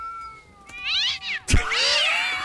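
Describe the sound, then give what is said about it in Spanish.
Cats fighting, played from a sound button: loud yowling caterwauls whose pitch slides up and down, broken midway by one sharp, noisy burst before the yowling resumes. “De gatos peleando.”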